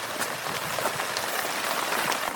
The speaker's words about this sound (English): Whew, rain's still coming down.